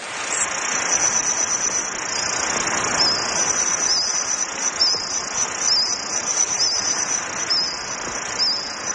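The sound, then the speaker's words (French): Reconstructed chorus of Jurassic insects in a forest: a continuous, shrill, high-pitched chirping drone that pulses slightly, layered over a soft, hissing background wash, with no voices. “Ah. C'est le son de certains insectes du Jurassique.”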